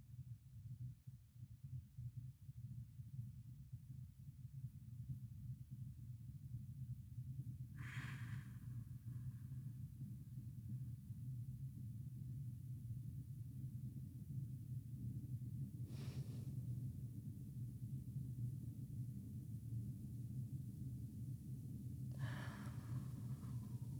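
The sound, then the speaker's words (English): Three slow, deep breaths taken during a guided breathing exercise sound as faint, airy swells spaced several seconds apart over a steady low hum. “So I thought I would do three of those breaths right now, and if you're driving or you're a place where you can't put your hand on your heart or your hand on your belly, maybe you could just breathe with us.”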